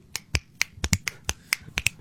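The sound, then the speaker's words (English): Finger snapping heard alone, many crisp, dry snaps in a fairly steady but slightly uneven rhythm, sharp and clear with no voices. “instead of the slow clap, it's the slow snap where it's just...”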